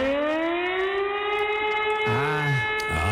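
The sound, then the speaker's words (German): A storm surge warning siren sounds during a test in Hamburg: a loud, steady, buzzy wail that holds one pitch throughout. “dann einfach mal nicht wundern. Hamburgs Sturmflutsirenen werden getestet.”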